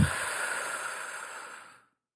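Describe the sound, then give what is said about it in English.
A single long breath during a guided relaxation exercise, a steady airy hiss that holds for nearly two seconds and then fades out into silence, heard alone without any voice. “First breath in. Breathe out.”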